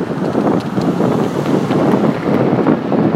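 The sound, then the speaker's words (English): Wind rushing over the microphone while riding a bicycle outdoors, a loud, steady buffeting roar with a rough low rumble that continues without pause. “Riding my bike for some reason.”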